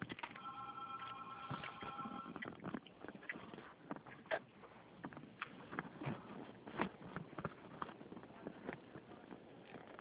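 A telephone rings back after a dropped call. A faint, steady ringing tone fills the first couple of seconds, then gives way to quiet line hiss and scattered soft clicks.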